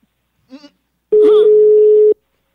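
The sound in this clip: A telephone ringing tone sounds as a single loud, steady low-pitched beep lasting about a second, preceded by a brief vocal sound and then followed by silence.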